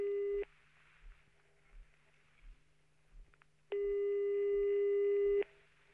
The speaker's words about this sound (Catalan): Truquem-lo a veure si està a aquestes hores del matí, a veure si podem localitzar aquest senyor.